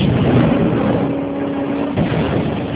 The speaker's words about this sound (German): Das war der Flammenwerfer!